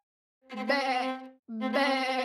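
Sheep in a flock bleat twice: two loud, drawn-out, wavering bleats, each lasting close to a second, separated by a brief pause.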